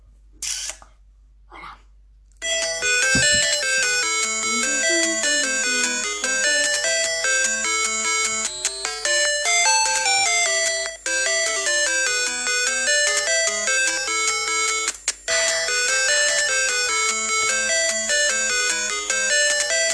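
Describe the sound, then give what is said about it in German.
Tetris theme music from the NES video game plays as a bright chiptune melody of quick stepping notes. It runs steadily after a few short blips at the start. “wenn ich jetzt schon über Tetris rede, dann muss ich unbedingt die Musik hören, oder? Tetris. Musik, oder?”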